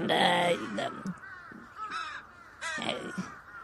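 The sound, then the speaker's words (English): Harsh raven caws blown through a raven mask, a voice imitating a raven. A few loud, raspy bursts come in uneven groups, separated by short gaps. “Good job on blowing the raven mask. I saw this what you were doing with your fucking mouth and shit.”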